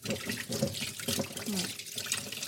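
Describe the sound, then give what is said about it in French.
Running tap water splashes steadily as a vegetable peeler is rinsed under it, a fairly quiet, continuous hiss and burble of flowing water. “Je rince mon économe et je vais.”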